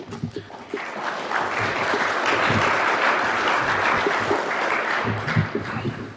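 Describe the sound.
Audience applause welcoming a speaker at a presentation, a dense, steady roar of many hands clapping that holds at an even level for about six seconds.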